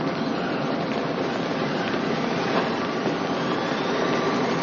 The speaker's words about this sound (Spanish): El tren del metro se aleja.